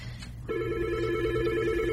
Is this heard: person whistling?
no